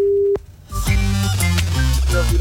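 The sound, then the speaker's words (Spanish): Telephone ringing tone while a radio show calls a listener: a single short steady tone, then a brief gap before louder tuneful tones begin. “Estamos llamando a Ana Luisa. Si contestas... Escuchemos el tono live, ¿no?”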